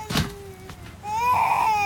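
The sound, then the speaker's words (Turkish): A person crying: a short sob and whimpering, then a louder, higher wailing cry, heard alone. “Tamam. Ağlama tamam.”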